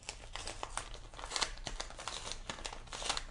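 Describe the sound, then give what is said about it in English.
Paper crinkling and tearing as a letter envelope is opened by hand, a continuous run of many small crackling rips and rustles at low volume. “Let's open up some mail.”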